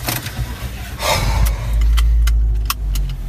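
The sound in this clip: Keys jangle briefly before a car engine starts for driving off, its low rumble swelling in and then holding steady as a loud idle, with a few light metallic clicks over it.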